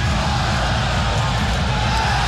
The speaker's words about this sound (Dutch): Het publiek gaat erachter staan, voelt ook dat Go Ahead die steun nodig heeft.